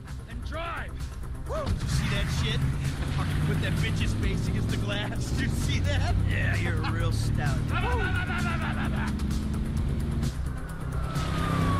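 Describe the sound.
A car drives in a video game tutorial, its engine a steady low droning hum throughout, with voices talking over the driving sound.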